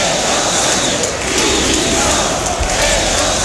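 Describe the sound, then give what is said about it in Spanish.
A large protest crowd at a rally in Seville supporting Ceuta chants against Spain's government, demanding resignations, in a loud, dense, continuous roar of many voices. “Un público que cargó mayoritariamente contra el presidente del gobierno, Pedro Sánchez, y el ministro del Interior, Fernando Grande Marlaska, pidiendo su dimisión.”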